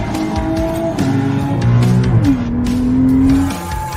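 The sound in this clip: A race car engine in a racing simulator video game at Bathurst, heard as a loud, continuous droning whine whose pitch shifts several times, with no voices.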